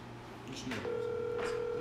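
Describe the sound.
A telephone call rings out over speakerphone: a steady electronic ringback tone starts partway through and holds to the end, with some talk around it.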